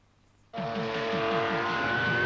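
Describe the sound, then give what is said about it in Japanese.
A Bandai radio-controlled twin-turbo Porsche racing car roars in abruptly after a moment of near silence. The engine revs in repeated rising surges under a high, steady whine and stays loud to the end. “これがレーサーズポルシェだ。ターボオン。見たか、ツインターボのこの威力。ラジオコントロールバンダイツインターボシリーズ。”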